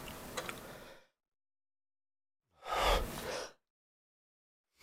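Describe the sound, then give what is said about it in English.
A single sneeze bursts out, loud and breathy, after an earlier noisy breath-like sound and a stretch of silence. No one talks. “Darn You Sneeze. Why do I have bodily functions?”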